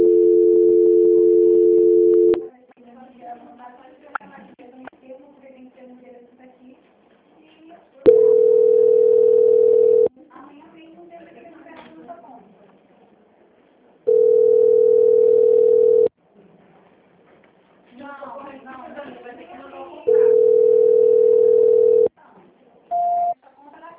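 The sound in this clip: Four steady telephone line tones, each about two seconds long, sound while a call is being transferred. A low murmur of voices fills the gaps between them, and a brief tone blip comes near the end.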